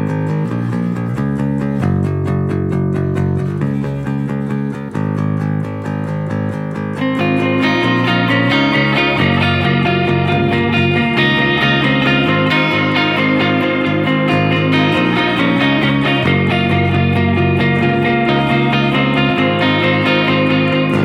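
An electric guitar with heavy modulation and delay effects plays a repeating chordal pattern over a bass line. The sound is dense, continuous and loud, thickening after the first few seconds, with no talk.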